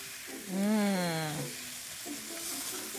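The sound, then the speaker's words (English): A scramble cooking in a pan gives a steady, soft sizzling hiss throughout, with a brief voice-like hum rising and falling over it early on. “I mean, it is a scramble, so you do want to break it apart. And then just keep mixing it up and cooking it.”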